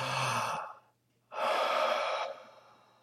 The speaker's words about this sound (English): So begin to breathe. Just take a deep breath. Feel the weight of the body. Take another deep breath in.